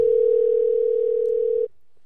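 A telephone dial tone hums while a call is being placed: one steady, mid-pitched tone holds for about a second and a half, then cuts off abruptly into near silence.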